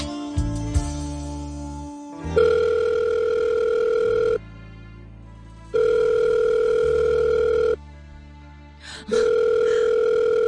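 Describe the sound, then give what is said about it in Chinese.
Ringing tone of an unanswered telephone call: three long, steady electronic tones of about two seconds each, separated by short silences, loud and clear with no voices. “听电话啦，你听电话啦，求下你啊！”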